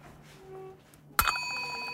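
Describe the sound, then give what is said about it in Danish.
A small broken bell with a spoon on it is struck once: a faint metallic clink, then a thin, sustained ringing tone that fades slowly. “Nej, det er en ødelagt klokke med en ske på”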